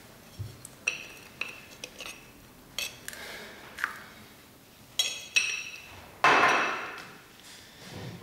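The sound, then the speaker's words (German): Clinking taps of laboratory tools while 50 grams of sample are filled into a crucible: a series of sharp, irregular metallic and ceramic clicks, with a louder, longer clatter near the end. “Füllen Sie 50 Gramm der Proben in den Tiegel.”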